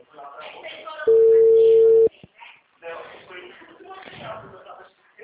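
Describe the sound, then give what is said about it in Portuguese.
A telephone ringback tone on an unanswered call sounds once as a steady, mid-pitched tone lasting about a second. Faint, muffled voices are heard before and after it. “Alô? Alô? O número não responde.”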